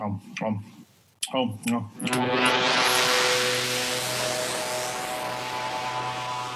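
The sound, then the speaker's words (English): A science-fiction portal effect as someone is sucked through it. After a brief stretch of speech, a loud, sustained swirling rush of noise begins, with a steady tonal hum running underneath. “oh my God, he just got sucked up through a portal”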